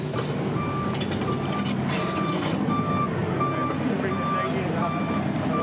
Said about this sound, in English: So the jumper puts it in and then the track machine will come in and disperse it afterwards in a specific way.